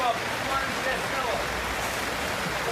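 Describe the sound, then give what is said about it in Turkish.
Heavy rain and floodwater after two days of nonstop rain, with an opened dam gate sending an overflowing stream over a livestock market: a dense, continuous rushing wash with no breaks or separate drops. “Dün geceden belli gördüğünüz gibi işte su bastı burayı. İki gündür durmadan yağıyor.”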